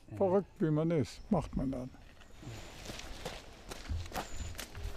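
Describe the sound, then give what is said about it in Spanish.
An 81-year-old man jogs up 177 stairs two at a time. Soft, irregular footfalls and rustling follow a short burst of voice. “Subir 177 escalones trotando no es nada fácil. Pero como estoy loco, lo intentaré.”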